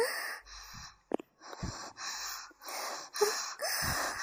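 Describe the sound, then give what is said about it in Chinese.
Heavy breathing from someone hiding in a small dungeon: a run of loud, rasping breaths in an uneven rhythm with a few sharp gasps, no talk. “我已经听到你粗重的呼吸了哦”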